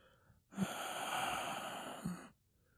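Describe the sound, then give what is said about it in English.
A slow breath in and out makes one long, soft rush of air lasting under two seconds, with a brief breathy catch at its start and another at its end. “Exhale. Inhale. Exhale.”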